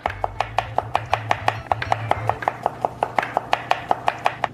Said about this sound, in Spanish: Intenta cortar lo más fino posible. Ya fallé.